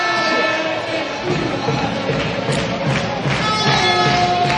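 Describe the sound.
A football crowd cheers at a Recreativo de Huelva match, a loud, continuous roar of many voices that swells slightly toward the end.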